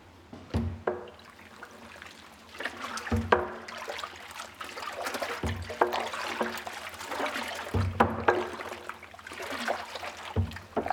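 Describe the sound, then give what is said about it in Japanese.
Yeast culture being stirred in liquid for sake brewing: quiet sloshing and trickling water, broken by five low, soft thumps that come at a steady pace. “隣の部屋では6億匹の酵母菌が、こちらもまた繊細な音を奏でながらかき混ぜられていました。”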